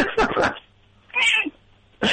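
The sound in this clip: A cat gives a single drawn-out meow between short bursts of people talking, fairly loud and clear against a quiet low hum.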